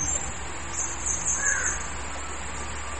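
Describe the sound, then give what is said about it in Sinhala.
A crow cawing: a few faint, hoarse calls over a steady background hiss, with no talking. “කය ගන්නකොට දන්නවා කපුටා ඉන්නවා කියලා. නේද? ඇහෙනවා නේ.”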